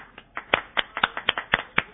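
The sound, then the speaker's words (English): Sharp, dry hand claps used as an applause sound effect during a mock sitcom taping, roughly eight evenly spaced claps in a steady rhythm with no crowd noise around them. “This is kind of a everybody laughed really hard, so we got a laugh track here. Where's the applause sign?”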